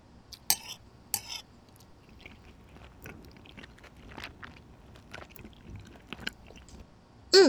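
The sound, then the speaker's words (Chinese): Faint chewing and biting as someone tastes food: a couple of sharp crunchy clicks early on, then soft, irregular mouth sounds, ending with a louder burst. “那我就尝尝看。”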